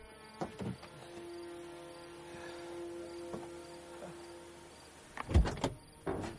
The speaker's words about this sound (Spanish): da la vuelta y abre la puerta del copiloto.